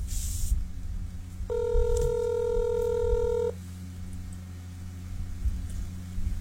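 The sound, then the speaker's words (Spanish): A telephone ring tone sounds as a steady electronic tone lasting about two seconds, heard once over low background hum. “answer the phone, please.”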